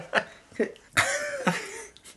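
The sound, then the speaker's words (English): Coughing and throat clearing, as though something is stuck in the throat: four short bursts, with the third the longest and most voiced, alone without talk. “There's something stuck in your throat there.”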